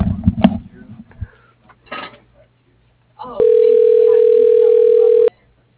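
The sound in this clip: A telephone call ringing through: after brief talk and a pause, one steady, level electronic ring tone sounds for about two seconds, then stops abruptly.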